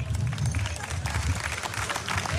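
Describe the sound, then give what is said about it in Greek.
Crowd applause at a youth tournament ceremony, a rough continuous patter of many hands mixed with low crowd rumble, steady throughout. “Αυτούς ευχαριστώ και θέλω ένα μεγάλο χειροκρότημα για όλους αυτούς.”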